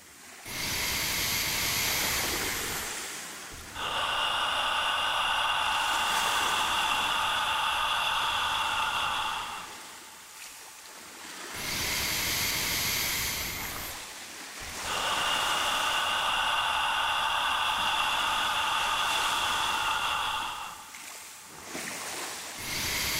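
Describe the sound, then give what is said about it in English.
Forceful open-mouth "ha" breaths used in meditation, heard as a few long, loud, breathy rushes of air separated by brief pauses, each steady and sustained, with no talking. “you make the sound of ha, the ha of Hawaii. Let me show you what a ha breath sounds like.”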